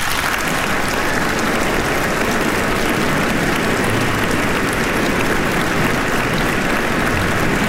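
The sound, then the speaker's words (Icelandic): Concert audience applauding a national symphony orchestra: a thick, continuous roar of many hands clapping at once, steady and loud from start to finish, like heavy rain. “Það er Daníel Bjarnason sem stjórnar henni hér í kvöld og ég legg til að við gefum henni gott klapp.”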